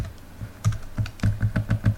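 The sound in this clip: Code being typed on a computer keyboard: many light key clicks in a fairly even rhythm, growing quicker toward the end, with no one talking.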